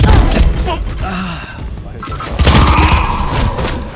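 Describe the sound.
A grenade explosion in a video game: loud, dull booms mixed with crackling gunfire, one burst at the start, a lull, then another heavy blast near the end.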